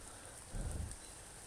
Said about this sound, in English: It's raining. Has been a rather wet week here in Franklin.